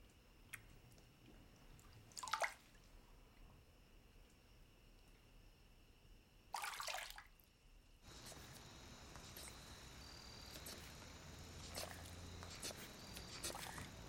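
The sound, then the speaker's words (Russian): Water scooped by hand and poured over a quiet baby gives two brief, soft splashing bursts over a faint background, followed by a steadier low wash of sound. “Она зачерпывает ладонью воду и поливает малыша. Она продолжает спокойно и размеренно поливать водой затихшего младенца.”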